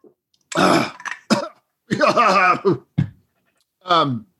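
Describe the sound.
Throat clearing: several harsh, rasping bursts separated by short pauses, some carrying a voiced, grunting tone, with no talk between them.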